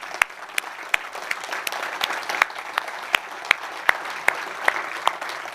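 Congregation applauding during a church service after being asked to make some noise: dense, sustained clapping with many sharp individual claps standing out from the steady wash.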